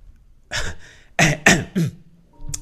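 A person gives a few dry coughs in short, harsh bursts, some spaced apart and others closer together, with no speech alongside.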